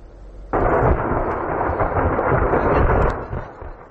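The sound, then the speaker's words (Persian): Munitions explode at a burning arms depot in Kharkiv: a sudden loud blast opens into a heavy, sustained rumbling roar that holds for a few seconds, then fades. “تا کنون 31 انبار سوخته پیوسته صدای ترکش مواد منفجره به گوش میرسد و آثار این ترکش ها در مسافه تا 2 کیلومتر دیده میشود.”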